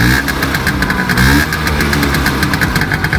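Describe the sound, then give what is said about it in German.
An old Vespa scooter engine running, loud and steady, with a rapid rhythmic pulsing buzz and a rattly mechanical texture throughout, with no voices. “Ja, das war natürlich eine Vespa, eine alte Vespa.”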